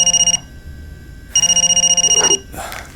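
A telephone rings in two trilling bursts, each a rapid rattling bell pulse. The first is short and cut off at the start. After a pause comes a second burst about a second long, then quieter noise.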